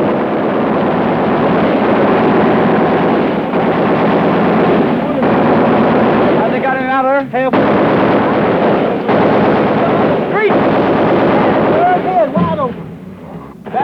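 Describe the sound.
Gunfire during a street firefight rattles in a dense, sustained clatter with sharp cracks throughout, and men's voices call out over it.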